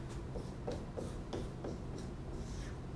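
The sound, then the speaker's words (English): A marker draws on a board with faint, rhythmic, scratchy strokes, several short swipes in quick succession. “and I'm drawing our old friend XYZ on the board.”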